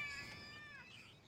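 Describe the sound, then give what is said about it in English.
A cat lets out a single faint, wavering cry, a drawn-out yowl whose pitch bends as it goes, alone with no talk over it. “Yeah, that cat's having a good time.”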